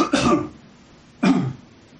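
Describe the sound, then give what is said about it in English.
Two coughs from a person, each a short, harsh burst. The second follows after a quiet pause of just over a second, and both are fairly loud with no talk around them. “Just one second, I want to cough.”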